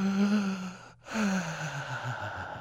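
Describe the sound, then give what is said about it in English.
A deep breath taken deliberately as a demonstration: two long, breathy airflow sounds split by a short silent gap, each fairly soft and smooth, with no words spoken. “take a deep breath. Go like this.”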